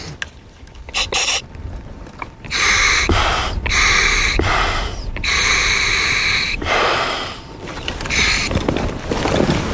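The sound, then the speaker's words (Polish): A diver breathes through a scuba regulator second stage: a series of loud hissing inhalations with a reedy, buzzing tone, broken by short gaps and quieter bubbly exhalations. “Drugie stopnie to są właśnie te elementy, które wkładamy sobie do ust i które umożliwiają nam oddychanie.”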